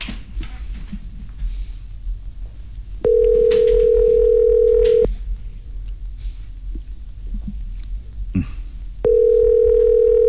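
Ringback tone of a phone call waiting for someone to answer: a loud, steady tone lasting about two seconds, a pause of about four seconds, then the tone again, over a low hum with faint clicks.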